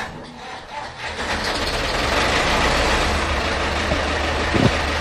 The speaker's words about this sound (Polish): Te ciągniki są i jeszcze długo będą. To jest Ursus C360.